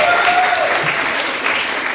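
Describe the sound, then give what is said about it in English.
Audience at a bingo day clapping for the MC, a loud, dense burst of applause that stays steady for two seconds, tapering only slightly toward the end. “And great job to our MC. Yeah, should we clap it up?”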